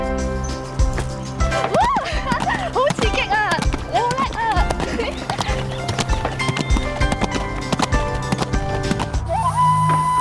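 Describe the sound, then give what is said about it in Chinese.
Horse hooves clip-clop as the horse is ridden at an easy pace. Many quick knocking steps run through the whole stretch, steady and fairly loud, with voices over them. “原来骑马系咁喎，我初时以为咧会跑得好快，好刺激嗰啲啊。”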